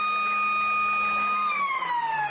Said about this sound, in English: As the siren sounds